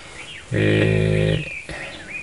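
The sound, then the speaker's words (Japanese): Small birds chirping noisily outdoors in Iwaki, Fukushima, around late afternoon: thin whistled chirps and sweeping calls run throughout, and a louder droning harmonic sound briefly covers them in the middle. “後ろの方でやはり小鳥がうるさくさえずっておりますが、”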